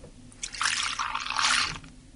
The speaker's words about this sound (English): So shall we try the cold out? I'll try the cold tap as well.